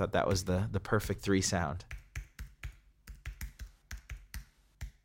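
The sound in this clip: Typing on a computer keyboard in an author's writing space: after a short spoken remark, a quick, irregular run of many crisp key clicks follows, each tap sharp and separate.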